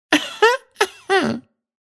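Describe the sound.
A reader voices an imitation of throat clearing: four short, rough vocal bursts in quick succession, the last one longer and dropping in pitch.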